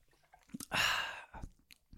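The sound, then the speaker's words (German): A bottle of Köpi beer is opened with a loud, half-second fizzing hiss, framed by a few soft, quiet clicks and swallowing sounds before and after. “Ich mach was. Mal kurz mein Bier auf.”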